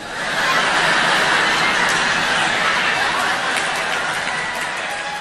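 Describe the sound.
Applause from an audience welcoming a performer on stage, a dense, even roar of clapping with chuckles and chatter mixed in.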